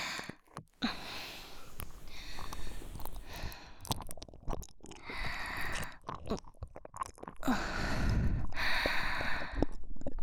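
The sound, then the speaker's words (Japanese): Wet ASMR licking and mouth sounds play on the left ear, a continuous mix of soft smacks, slurps and breathy sighs that rise and fall in loudness without any speech. “次は左耳をペロペロしちゃいますね。失礼します。”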